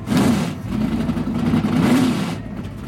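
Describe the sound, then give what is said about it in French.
Formula 1 single-seater racing cars run on track during qualifying at the Watkins Glen circuit. A steady, loud engine drone holds throughout, its pitch wavering slightly as the cars pass. “le speaker annonce le début de la séance d'essais qualificatifs pour cette 15e et dernière manche de la saison de Formule 1. Assis dans les tribunes et sur les pelouses autour du circuit, plus de 10 000 spectateurs ont fait le déplacement pour assister au premier tour de piste des monoplaces.”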